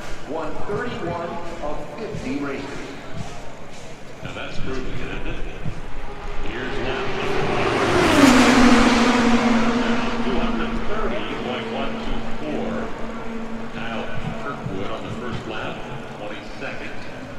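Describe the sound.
A race car at Indianapolis Motor Speedway during Indy 500 qualifying passes by. Its engine roar swells to a loud peak just past the midpoint, then the pitch drops and the sound fades to a steady drone.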